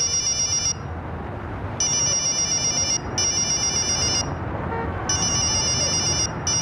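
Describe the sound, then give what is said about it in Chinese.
A mobile phone rings with a bright, high electronic ringtone in repeated bursts separated by short gaps, over a steady low background hiss. “正说着，肖雷身上的手机突然响”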